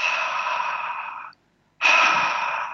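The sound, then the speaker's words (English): A voice imitates white noise with breathy H sounds: two long, steady hissing exhalations separated by a short silent pause, the second slightly louder than the first. “You can do the S sounds, shh, shh, shh, or the H sounds,”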